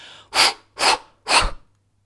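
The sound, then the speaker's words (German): Three forceful exhalations in a breathing exercise, following a nasal inhale and a held breath. The breaths are loud, evenly spaced puffs of air with short silences between them, and nobody talks. “und jetzt in drei Stößen ausatmen.”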